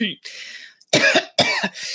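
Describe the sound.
A person coughs and clears their throat from something caught in it, a few short rough bursts set among stretches of conversational talk.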